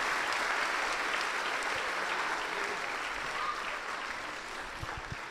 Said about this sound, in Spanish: Un aplauso para los jóvenes, regresen a sus lugares.